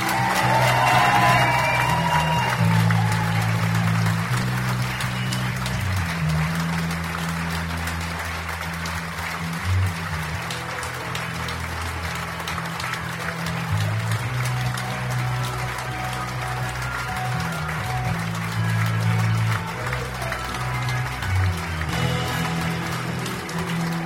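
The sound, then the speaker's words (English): Audience applause welcoming a poet on stage for an evening performance, long and steady clapping at moderate level with a low sustained tone beneath it, holding without a clear build or fade. “Please give it up and give a huge welcome to Tony Walsh!”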